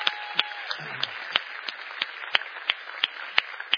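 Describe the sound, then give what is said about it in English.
Applause for the First Impressions welcoming team: sparse, crisp claps that land at a steady, evenly spaced rhythm, many in a row, moderately loud, with no voices over them. “give it up for everyone who serves on the First Impressions team?”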